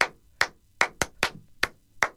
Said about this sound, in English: Whatever happened to the classic clap?